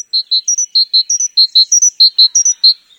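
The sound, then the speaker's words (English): A great tit sings in the European spring, repeating clear, high two-note phrases in a quick, even rhythm and alternating between a lower and a higher pitch. The song is loud and heard alone, with no talking. “This is the song of a great tit, one of the most familiar sounds of the European spring.”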